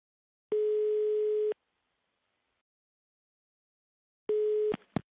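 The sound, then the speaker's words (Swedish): Telephone ringback tone heard while calling a number: two steady, buzzy tone bursts of about a second each, separated by a long silent pause. The second burst is cut short by sharp clicks. “Ja, det är det vi ska göra. Vi ska ringa. Se om man svarar.”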